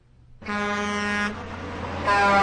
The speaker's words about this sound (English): I always play the truck horn when people self-promote.